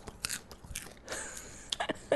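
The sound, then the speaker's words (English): Popcorn shifted around by hand gives crisp, crunchy rustles and scrapes in a few short, quiet bursts separated by brief pauses. “I think my producer's going to cringe, but listen to this, everybody. I'm going to move the popcorn.”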